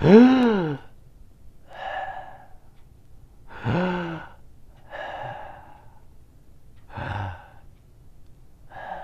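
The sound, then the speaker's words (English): Three big deep breaths, each a voiced gasping sigh followed by a softer airy exhale, spaced evenly and heard alone without talk. “Let's take three big breaths and think of three good things.”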